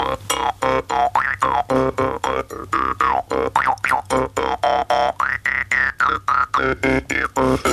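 An Estonian folk jaw harp is played in a fast, steady pulse of twangy plucks. Its buzzing drone shifts with swooping, vowel-like sweeps in tone, heard alone without voices.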